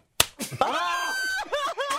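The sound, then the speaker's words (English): A hard slap to a bearded face during a slapping game: one sharp, loud smack, followed at once by voices crying out in surprise. “That has to be a hard hit to hear it that loudly with a beard.”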